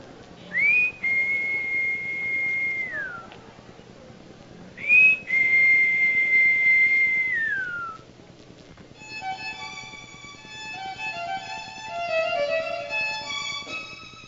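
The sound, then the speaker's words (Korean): A man whistles into an intercom as a signal: two long, held high notes, each ending in a downward slide, then a quicker warbling run of notes, over a low, steady background hum. “인터폰을 대고 휘파람을 붑니다. 자신과 아이들만이 아는 신호지요.”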